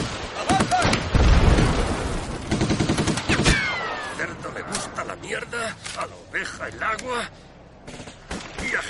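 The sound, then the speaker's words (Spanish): Machine-gun fire in a WWII war film battle scene with tanks: rapid, loud bursts of shots crowd the first few seconds, then thin out into sparser cracks and pops as voices come through. “Dispara con una ametralladora. El proyectil de un tanque impacta sobre él.”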